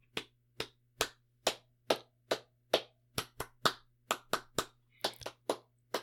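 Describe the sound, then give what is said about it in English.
Hands clapping out a rhythm game pattern: a long run of sharp, crisp claps in an uneven, varied rhythm, some spaced apart and some in quick pairs, alone over a low steady hum. “Try playing the game where you clap a rhythm and then everyone else claps it back to you.”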